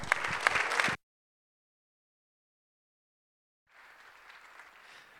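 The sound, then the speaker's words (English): An audience applauds to welcome a pastor and missionary as he comes up. About a second of lively clapping stops abruptly, and after a silent gap fainter applause returns. “And so let's give him a hand as he comes up.”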